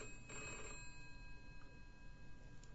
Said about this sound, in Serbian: kao kad zazvoni telefon, ali fiksni.